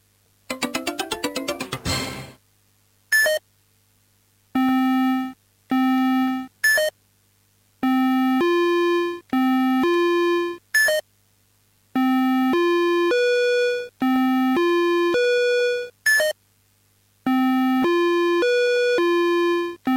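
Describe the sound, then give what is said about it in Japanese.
Organ-like electronic tones from a robot memory game that lights numbered buttons in random order. A busy electronic flourish opens, then many held notes at shifting pitches follow, separated by short gaps. “ロボットがオルガン音とともにランダムに光らせる数字ボタンの順を覚えて、その通りにボタンを押してください。”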